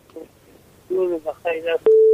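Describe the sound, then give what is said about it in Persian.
Telephone line tone as a caller is connected to a radio call-in show: a brief, steady, loud electronic tone sounds at the end, after a few short voice-like sounds. “یک تماس دیگر رو وصل می سازیم بشنیم کدام نازنین است، از کجا تماس گرفته.”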